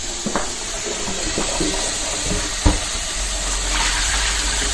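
Water runs from a tap to soak dishes, a steady rushing hiss with a few faint knocks and clinks mixed in, and no talking.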